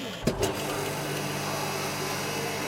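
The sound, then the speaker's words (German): Vacuum sealer sealing a bag of spices, starting with a short click and then a steady motor hum that stays even to the end. “Schnell werden die Gewürze noch vakuumiert.”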